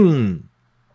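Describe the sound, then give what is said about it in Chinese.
A light throat-clearing cough, given as a demonstration, is a single short voiced burst whose pitch falls, over within half a second and followed by silence. “浅咳就比较像我刚刚那样子，就清个喉咙，这种很轻的”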